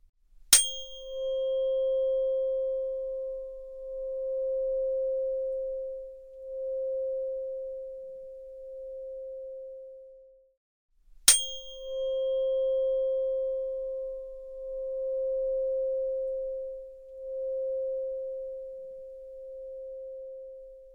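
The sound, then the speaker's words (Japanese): A tuning fork, a soothing tone said to ease pain and repair cells, is struck twice. Each strike gives a sharp click, then a pure, steady mid-pitched hum that rings on for about ten seconds before slowly fading. “この音はね、痛みを和らげたり細胞を修復してくれるって言われてるんだよ。”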